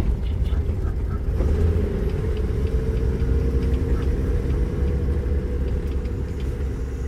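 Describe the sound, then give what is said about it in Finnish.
An old car engine strains up a hill toward home in low gear, giving a steady, low, rumbling drone that runs unchanged through the whole stretch. “mun auto on varmaan myös vanhentunut, koska ennen se on noussut tätä mäkeä kotiin ihan kepeästi. Nyt tuntuu vähän kankeelta. Pitää laittaa pienempi vaihde nopeammin.”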